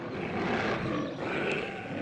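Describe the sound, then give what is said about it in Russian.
A tiger's roar, rough and loud, sounds as one long sustained growl that swells, dips slightly and swells again, with no talking. “Ой, кажется, на тигра!”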